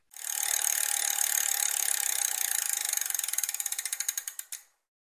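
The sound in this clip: A trivia prize wheel spins with loud, rapid ratcheting clicks that gradually slow and spread apart before a final few ticks and a stop, heard alone.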